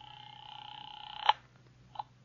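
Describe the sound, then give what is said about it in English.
A phone tone sounds during a call from a phone booth, holding steady for over a second before breaking off in a sharp click, then a short second blip of tone. “I went back to the phone booth and called Dr. Reichel's home. Perhaps he'd returned by now.”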